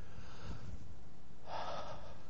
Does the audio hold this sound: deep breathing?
yes